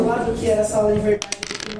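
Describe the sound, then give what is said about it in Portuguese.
Dice roll onto a table during a tabletop RPG session, a quick run of small hard clicks and clatters right after people finish talking. “Um dado fugiu da mesa. Três. Joga esse aqui de novo, clica.”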